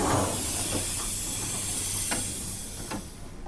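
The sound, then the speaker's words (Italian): A train at a station platform in Poggibonsi, on the line from Florence to Siena, gives off a steady, broad hiss that fills the whole moment, with a few faint clicks over it. “Il treno da Firenze a Siena passa per Poggibonsi, dove qualcuno mi sta aspettando sul binario”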